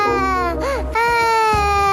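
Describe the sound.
A hungry young child cries in a loud, sustained, high-pitched wail that wavers and breaks briefly midway before continuing steadily to the end.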